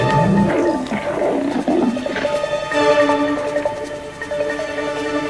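Hungry lions roar at a kill, with deep, drawn-out roars that stay loud and continuous from start to finish.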